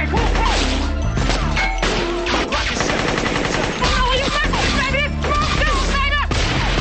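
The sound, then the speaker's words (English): Automatic weapon gunfire from a van during a shootout, with rapid bursts of loud cracks and bangs crowding together over other dense, busy sound. “Guns from the van are blazing. Craig shoots back. And reaches out of the van and fires an automatic weapon.”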